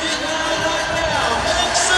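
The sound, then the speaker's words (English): Crowd noise at an Indianapolis Fever basketball game on a Friday night: a dense, steady roar of many voices that stays level throughout, with no distinct cheers or peaks. “A big crowd on this Fever Friday night at Cambridge Fieldhouse.”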